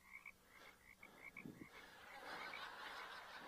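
Frogs croak in many quick, repeated chirping calls. The faint chorus thickens into a denser, continuous croaking toward the end.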